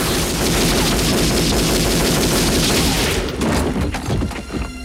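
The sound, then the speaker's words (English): Film gunfire blasts up through wooden floorboards in a loud, unbroken automatic fusillade of rapid shots. The barrage thins near the end into separate cracks and thuds. “Then, rolling under his back, John waits till dust falls from the boards directly above him before opening fire, perforating the men unfortunate enough to be standing on them at the time.”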